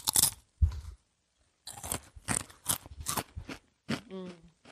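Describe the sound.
Crunching of a thick, spicy potato chip: several sharp, dry bursts of crunching chewing, fairly loud, followed by a short hummed voice near the end.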